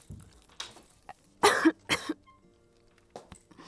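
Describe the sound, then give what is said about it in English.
Coughing from someone who has inhaled popcorn: two harsh, loud coughs come close together, with softer throat-clearing noises and smaller coughs before and after. “I inhaled popcorn. Yes, I'm okay.”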